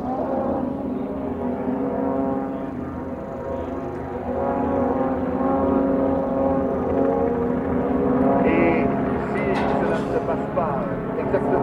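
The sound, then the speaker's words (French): An airplane flying overhead during a Formula 1 event, a continuous low droning hum of layered engine tones that holds steady and swells slightly toward the end. “Un avion.”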